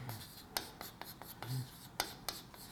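Writing on a board, heard as many faint, short scratchy strokes in an irregular rhythm, each a quick sharp rasp separated by brief quiet gaps.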